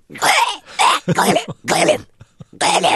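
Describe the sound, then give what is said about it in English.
A human voice imitates an animal coughing up a hairball with several raspy, throaty hacking and gagging bursts separated by short pauses, ending in a final retching heave. “And then this sound kind of happens where it kind of comes into the throat, and you see this fur about to being chucked up, and then they sort of go,”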